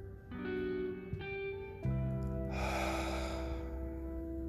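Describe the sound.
A deep inhale, then the breath held: soft sustained musical tones play, and an airy rush of intake lasting about a second rises over them before the sound settles back to the music alone.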